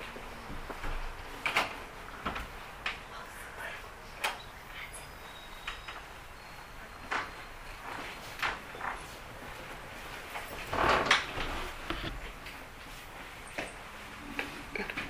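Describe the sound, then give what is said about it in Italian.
A door being pulled by someone trying to open it gives a series of faint, irregular clunks and rattles, with a louder cluster of knocks partway through. “prego vieni, tira quella porta, pare che qualcuno cerchi di aprire.”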